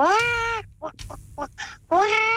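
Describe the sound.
A voice imitating a hen that has struck its claw, opening with a long, strained squawk, followed by several short clucking bursts, then another long squawk at the end.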